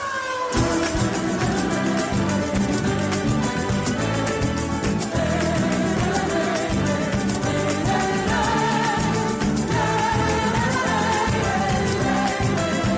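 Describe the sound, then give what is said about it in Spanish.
The Formula 1 motor racing theme is played on Spanish guitar with flamenco hand clapping. The music is loud and continuous, and crisp claps keep a steady rhythm all the way through. “Es la sintonía de la Fórmula 1, pero pues eso, con guitarra, con palma”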